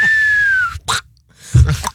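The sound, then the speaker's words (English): A person imitates a firework with their voice: a loud, steady whistle that slides slightly downward, then a short breathy burst. After a brief pause comes a louder, noisy blast of mouth sounds. “Who could do the best firework noise?”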